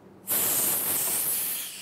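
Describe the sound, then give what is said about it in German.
Air hisses into a freeze-dryer chamber holding strawberries once drying ends, starting suddenly as a loud, steady, bright rush and easing slightly toward the end. “36 Stunden dauert die Gefriertrocknung. Dann erst kann wieder Luft eingelassen und die Dörrkammer geöffnet werden.”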